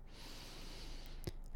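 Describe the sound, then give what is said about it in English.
Air pressed forcefully out through the nose using the belly during yoga breathing: a quiet, steady breathy hiss, then a brief sharp snort-like burst near the end. “use your belly to really press the air all the way out through your nose”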